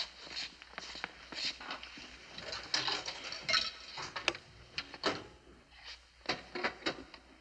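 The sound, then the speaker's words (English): A coin-operated milk vending machine runs after a dime is inserted, with irregular mechanical clicks, clanks and rattles over several seconds and a faint steady high whine underneath. “Hey, the out-of-order sign's gone off the milk machine. Oh, boy, must be fixed. Hey, who's got a dime? Well, here, I got one.”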